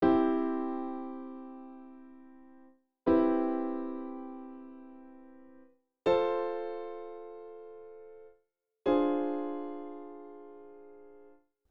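Four sustained chords played in C, a progression ending on a D minor seven flat five half-diminished chord: each chord is struck once and slowly decays over about three seconds before the next, moderately quiet with no other sound.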